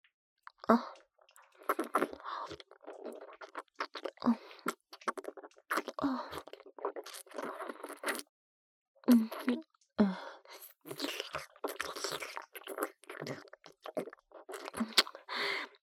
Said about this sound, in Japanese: 唇をペロペロ舐められるの気持ちいい？